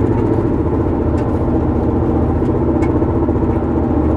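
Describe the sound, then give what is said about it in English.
A car drives with a loose inner flap under one tire. The engine gives a steady, loud, low drone, and a few faint clicks rise above it. “The fucking, like, the inside flap, like, under my tire is kind of fucked up. So that bitch be flapping around while I'm driving and shit, making all kind of fucking noises.”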